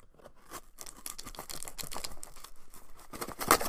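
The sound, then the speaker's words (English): A Benchmade knife cuts open the sides of a cardboard box with many rough, rasping tears and scratchy scrapes. They come in irregular bursts with no talk, and one sharp crack lands near the end. “opening up my Benchmade knife. There we go. I'm going to cut this box open. I'm going to cut the sides. And cut the other side.”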